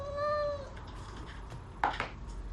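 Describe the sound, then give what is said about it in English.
A cat gives a single drawn-out meow while being fed, followed by quieter rustling and a brief knock. “She feeds her cat.”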